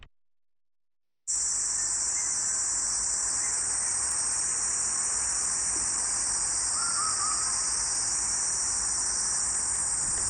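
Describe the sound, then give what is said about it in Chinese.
A huigu cicada calls with a steady, high-pitched buzzing drone that starts abruptly after a moment of silence and then holds unbroken at an even, moderate level. “这是什么声音呢？这是喙鸪的叫声。”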